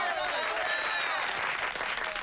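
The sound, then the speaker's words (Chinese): Villagers clap in a steady burst of applause to welcome an official in a period-film scene, a dense wash of claps with crowd voices mixed in. “我哋系代表戚家出嚟欢迎包大人你噶，大家俾啲掌声。”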